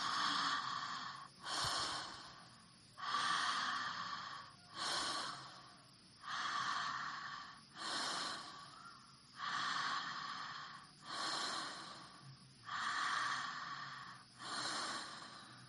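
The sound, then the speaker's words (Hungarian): Breathing in and out through the mouth, continuous and rhythmic, a long series of airy, fairly faint breaths rising and falling in regular waves with no talking. “akkor kezdj el lélegezni, szájon át be és ki. Folyamatos légzés, nincsen szünet belégzés és kilégzés, kilégzés és belégzés között.”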